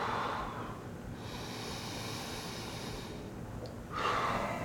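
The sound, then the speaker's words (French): Deep breathing during a medical check, with slow, long, airy breaths drawn in and let out one after another, steady and fairly faint, with no talk. “Votre respiration. Respirez profondément.”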